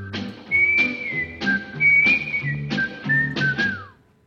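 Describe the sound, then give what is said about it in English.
Whistled television theme tune, a bright, clear melody in several phrases with slides between notes. It is loud and steady, with no voices over it. “Andy Griffith theme, can you whistle it?”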